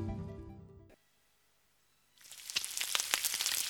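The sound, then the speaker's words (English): A rattlesnake rattles with a dry, buzzing hiss that rises out of silence and keeps going, after a short tonal sound at the start. “Ah, trick question. That's an asthmatic rattlesnake.”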